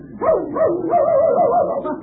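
A little dog gives a loud, drawn-out, wavering whine-howl with its pitch wobbling up and down for about two seconds, alone with no talk.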